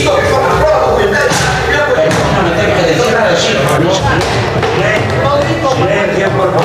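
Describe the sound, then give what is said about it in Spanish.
A shoe banged on a parliament seat during a heated confrontation: a few hard, loud thumps against constant noise and voices. “Y ahí se oye el zapatazo.”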